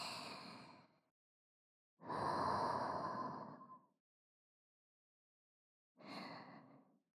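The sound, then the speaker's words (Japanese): Slow, airy breaths in and out during a guided breathing exercise, three separate breath sounds with silence between them, the middle one longest and strongest, soft and sigh-like. “吸って吐いて”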